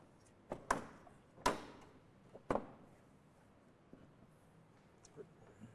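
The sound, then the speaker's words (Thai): Plastic outer housing being fitted and snapped into its locking points, heard as three sharp clicks and a few fainter taps spread across an otherwise quiet stretch. “ก็ทําการประกอบในส่วนโครงสร้างภายนอกนะครับให้ใส่จากล่างขึ้นบนนะครับครอบเข้าไปนะครับและทําการใส่ให้ถูกตําแหน่งตามจุดที่ทําการล็อกนะครับ”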